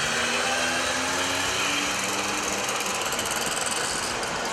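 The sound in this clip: Engines of vintage vehicles on a group ride blend into a dense, buzzing, rattling drone that holds steady and loud throughout, with no talk over it.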